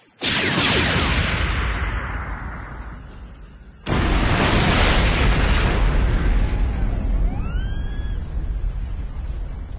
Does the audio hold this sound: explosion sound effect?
yes